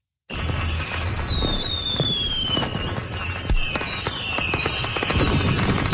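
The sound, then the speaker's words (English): Fireworks burst in a summer sky in Manitoba: loud, dense crackling and sharp pops continue throughout, and several whistling trails fall in pitch. “there is nothing like fireworks in the summer sky here in Manitoba.”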